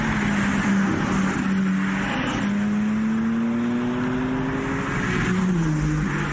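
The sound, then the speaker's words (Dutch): A BMW M3 Touring estate with a 510 hp engine roars loudly and steadily at a hillclimb, its pitch climbing through the revs with a couple of abrupt drops at gear changes. “En een andere blikvanger is de BMW M3 Touring. Eindelijk een stationversie van een M-model. BMW M bestaat 50 jaar, dus dat wordt gevierd. Ook dus met een station. En daar zit dan 510 pk in. Klinkt zo op de hillclimb.”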